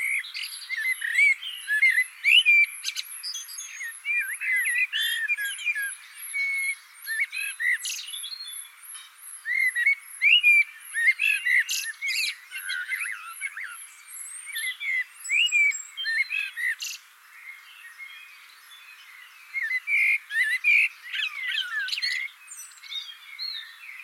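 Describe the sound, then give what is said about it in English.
A blackbird sings in many short, high phrases of whistles and chirps, with brief pauses between them. The song is clear and carries on alone for the whole span. “So these neighbouring birds sharing songs are not quite enemies.”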